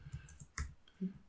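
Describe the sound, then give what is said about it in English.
Typing on a computer keyboard, heard as a few soft, faint clicks and taps at irregular intervals. “Just type in Vice TV.”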